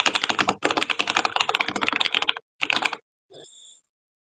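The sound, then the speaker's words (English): Computer keyboard typing in quick, dense runs of clicks, one long fast burst and then a shorter one, crisp and without talk. “I really like the way my keyboard sounds. It feels very nice, especially when I'm typing fast.”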